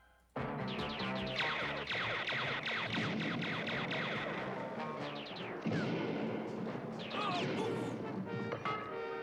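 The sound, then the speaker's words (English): Cartoon gunfire in an animated robot battle: many rapid blasts and crashing hits pile up over a dense, loud, continuous backdrop of effects and music. “Didn't look like they were actually aiming at any of the actual Autobots, though. It was a wide angle of shots.”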